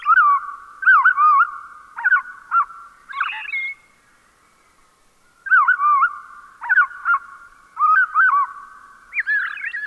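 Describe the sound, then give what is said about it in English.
A robin's evening song slowed to half speed: lowered warbling whistles and quick trills in bursts of short phrases, loud and clear, with a silent pause in the middle before the song resumes. “Let's listen more closely to the fine detail of a robin's evening song by slowing down the same notes to half normal speed.”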